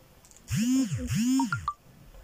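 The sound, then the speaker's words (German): A phone message notification: two swooping, harmonic tones followed by three short, bright beeps stepping upward in pitch, standing alone without talk. “Ich habe eine Nachricht bekommen. Ich bekomme die ganze Zeit Nachrichten. Ist mir egal. Ich mache jetzt eine Folge. Sorry, falls ihr das so laut hört.”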